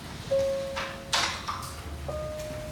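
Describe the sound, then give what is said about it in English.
A door swings open into an empty studio with a thin, steady squeak that holds for a moment. A few dull clunks and knocks follow, with a second, fainter squeal near the end. “opens the door and slowly moves inside.”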